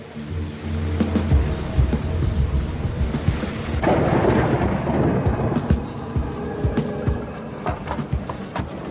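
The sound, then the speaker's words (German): Thunderstorm with rain as a sound effect for a storm at sea: steady, dense, loud hiss of rain with low rumbling swells of thunder, continuous throughout with no voices. “Das Unwetter wurde im Laufe des Tages immer schlimmer.”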